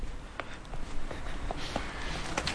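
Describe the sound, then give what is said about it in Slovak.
Footsteps walk down stone stairs toward a terrace among outdoor statues: a few soft, irregular steps tap faintly over a steady background hiss. “Teraz zídeme na takú prvú terasu po tých schodoch dole.”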